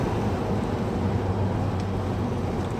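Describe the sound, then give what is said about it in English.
Low, steady rumble of an oversize truck hauling a portable wheat bin as it passes, a continuous engine and road drone with no voices. “Something huge is coming. The pilot vehicle it's a wheat silo. Portable wheat bin.”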